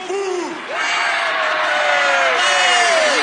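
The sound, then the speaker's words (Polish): A tournament audience in the Dragon Ball Z cartoon shouts loudly. The dense roar of crowd voices carries rising and falling whoops, dips briefly early on, then swells and stays loud. “Publiczność strasznie głośno krzyczy.”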